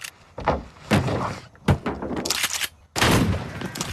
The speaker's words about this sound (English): Firing shotgun into the coffin.